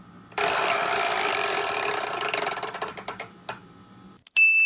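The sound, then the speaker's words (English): A chore wheel spins with a loud rapid ratcheting whir that breaks into distinct clicks, slowing until it stops, followed by a short bright tone. “would you mind giving the chore wheel a spin?”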